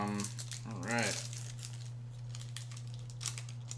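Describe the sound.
A foil pack of Topps baseball cards crinkles and tears open, bursts of crackling foil with a brief voice near the start, then softer rustling that flares again near the end.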